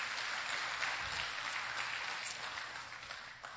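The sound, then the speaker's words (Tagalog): Audience applause at a preacher's sermon, a steady wash of many hands clapping together, moderately loud and fading slightly toward the end. “Palakpakan natin ng Panginoon. Praise the Lord.”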